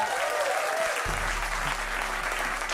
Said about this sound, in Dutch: Mag ik één applaus voor Olivier Sleeuwen?